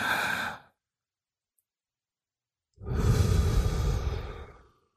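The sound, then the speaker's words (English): Slow, deep breathing during a relaxation exercise: a brief breathy sound cuts off into silence, then a long, loud, airy breath of about two seconds swells and fades out like a deep sigh. “take the longest inhale probably you've had in the last week and the longest exhale. Don't force it. It'll sound.”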